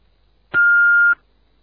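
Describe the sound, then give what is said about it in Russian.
An answering machine beep sounds after the greeting: one steady, clear tone lasting about half a second, fairly high-pitched and alone, with starting and stopping cleanly against near silence. “Оставьте свое сообщение после сигнала.”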